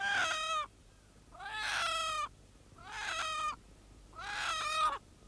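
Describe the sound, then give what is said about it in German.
Chickens wandering onto a neighbour's lawn give four drawn-out, high, strongly harmonic squawking calls, spaced by short pauses and heard alone against a faint background. “sind meine Hühner wieder auf ihrem englischen Rasen?”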